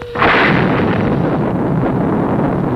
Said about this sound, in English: Firing Sting Missile 1, Force 5. Firing Sting Missile 2, Force 10.